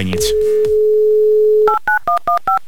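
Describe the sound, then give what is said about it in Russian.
Telephone number dialled with touch-tone DTMF beeps. A steady held tone comes first, then gives way to a quick, evenly spaced run of short, loud two-tone beeps. “Набран номер, ждем голос Светланы”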